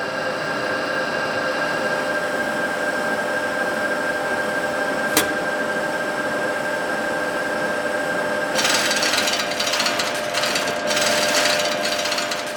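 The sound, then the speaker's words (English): Millstones grind a seed mixture soaked in verjuice of water, salt and vinegar, a steady mechanical rumble with a faint hum. A single sharp click falls midway, and the grinding turns rougher and noisier toward the end. “Look just in front of you. These machines you see here are called millstones. They aren't just ordinary millstones. These ones crush the seed and verjuice mixture.”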